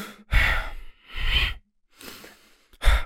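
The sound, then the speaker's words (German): Voice imitating a man sitting in front who kept snorting heavily and leaning forward: four loud, breathy nasal blasts in an uneven rhythm, the third softer than the rest, with no words between them. “der irgendwie so die ganze Zeit so geschnauft hat”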